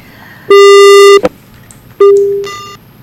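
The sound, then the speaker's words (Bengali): Telephone busy signal on a faulty phone line: two long, loud, steady tones separated by a short gap, the second fading out gradually, with no talk over them. “আবার একটু phone লাইনের গন্ডগোল চলছে”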